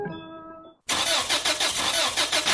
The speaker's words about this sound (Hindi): No! Car खराब मतलब दिन और मूड दोनों खराब, इसीलिए अपनी कार को सही केयर दो।